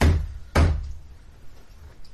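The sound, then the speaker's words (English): Two big, heavy knocks, as from a man, strike a door about half a second apart, each a low booming thud with a short decaying tail, followed by quiet. “When you hear a big, heavy male knock on the door, which is not alarming in any way because many of your customers wear heavy armor”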